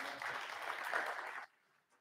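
Audience applause at a church service for the sound and technical crew in the booth: dense, steady clapping that holds for about a second and a half, then stops abruptly, leaving near silence.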